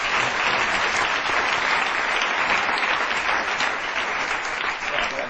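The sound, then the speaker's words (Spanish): Steady applause from an audience after a quiz answer ends in a tie: dense, continuous clapping that stays at an even, fairly loud level throughout, with no voices over it. “Un aplauso.”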